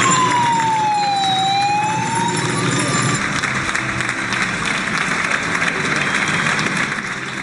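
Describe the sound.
Public applause for health workers during Spain's coronavirus outbreak: dense, steady clapping runs the whole clip, with a wailing siren sweeping up and down over the first few seconds.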